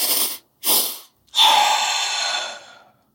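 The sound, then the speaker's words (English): Deliberate breathing for calming stress: two quick inhales of similar length, each followed by a brief pause, then one long, steady exhale that fades away. The breaths are loud and heard alone. “you take a slightly longer inhale followed by a shorter inhale and then a really long exhale. And it goes something like this.”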